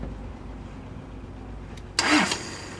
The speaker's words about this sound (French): Allez encore, fais ça le gaz là. Mettez bien sous gaz là, va le gaz.